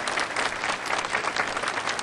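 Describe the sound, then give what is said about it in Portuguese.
Audience applauding priests and bishops at a Catholic church gathering, a dense, even burst of clapping that holds steady throughout without any voices. “Uma salva de palmas para os padres e os bispos.”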